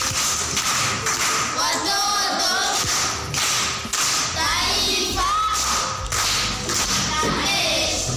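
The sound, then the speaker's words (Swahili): An audience at a primary school event claps for a pupil after a recitation. Many sharp claps come in bursts with two brief dips, and voices are mixed in. “Makofi kwa Mwendwa.”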